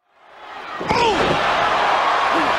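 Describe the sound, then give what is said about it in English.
A wrestler's spinebuster slam onto the ring lands as one sharp, heavy thud about a second in, over a loud crowd roar that swells and then holds steady. “Oh! Sidewalk slam by the Bull! A huge spine buster by Johnny the Bull.”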